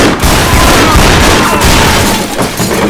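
Gunfire from two pistols being fired at once, a steady, loud roar of blasts with no gaps between them.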